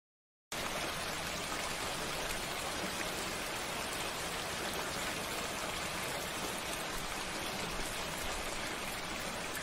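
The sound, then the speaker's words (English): Steady rain falling outside, a dense and even hiss of drops that starts after a brief silence and continues without a break or any voices. “It's raining outside.”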